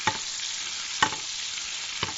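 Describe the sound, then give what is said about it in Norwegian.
Catfish fries in a pan with a steady, bright sizzling hiss, broken by three faint ticks spaced about a second apart. “her er jo når du steker fisk”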